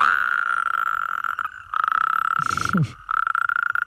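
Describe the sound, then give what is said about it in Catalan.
Frogs and toads calling at night, a loud sustained buzzing trill that holds a steady pitch, broken by a couple of brief gaps before resuming. “Pensa que aquests, els gripaus, granotes, molts amfibis, canten a les últimes hores del dia i ja entrada la nit.”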